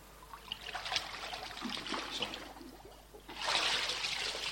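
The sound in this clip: Water splashes and trickles during a baptism in a pool. There is a faint, uneven rush of water over the first seconds, then a louder burst of splashing near the end.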